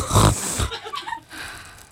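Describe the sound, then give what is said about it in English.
A loud nasal snort, as of someone sniffing fairy dust up off a tiny stone-lined path, comes as one breathy burst in the first half-second and trails into quieter, hissy noise. “You bend down gently over the tiny path and snort up the dust.”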